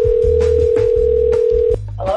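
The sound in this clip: A telephone call being placed gives a steady, unbroken line tone over a low hum. The tone cuts off abruptly near the end, and a brief voice follows.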